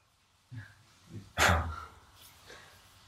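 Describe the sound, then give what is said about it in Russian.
A voice imitates a dog barking with a few short, gruff woof-like bursts, one much louder and longer than the others, followed by a faint trailing yelp. “Или в Майпуре, как они гавкают?”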